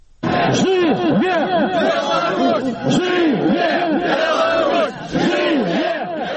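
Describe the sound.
A crowd of about 200 protesters in Minsk chants slogans on Belarus's independence day. The loud voices rise and fall together in repeated, rhythmic phrases over a constant background of crowd noise.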